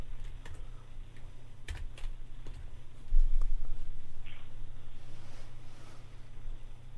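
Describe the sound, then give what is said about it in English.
Quick typing on a computer keyboard, with irregular bursts of light plastic key clicks over a steady low hum. There is no speech. “I'll just type in motels.”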